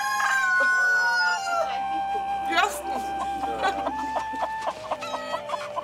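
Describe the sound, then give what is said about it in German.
Chickens and two ten-month-old young roosters in a backyard hen flock cluck and call continuously, with overlapping harmonic cackles, a sharp louder call near the middle, and busy clucking throughout. “Im letzten Jahr waren wieder zwei männliche Küken dabei. Die beiden Junghähne, Stinguin und Schneekönig, sind jetzt 10 Monate alt.”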